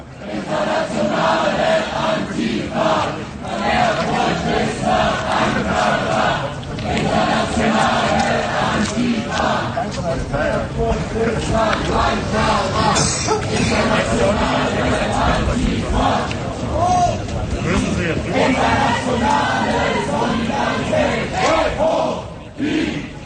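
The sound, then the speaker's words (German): Protesters chant and sing in unison while being detained on Cyriakstraße at Gothaer Platz in Erfurt, a loud, continuous mass of group voices with rhythmic chanted phrases rising and falling and brief dips between lines. “Die Protestierenden, die gerade hier festgesetzt werden, haben aber zumindest von außen betrachtet noch recht gute Laune. Sprechchöre und Gesänge wechseln sich hier ab.”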